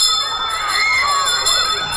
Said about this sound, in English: Yes, there goes the bell for our school call.